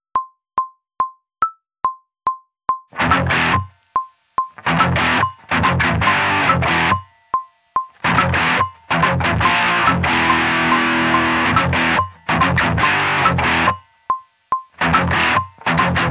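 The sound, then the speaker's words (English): Metronome click track ticking at a steady tempo on the right, with a distorted guitar intro riff on the left that plays in chopped bursts and sustained stretches between the clicks. “I pre-record this. You're gonna hear the click track on the right, and you're gonna hear the intro riff on the left.”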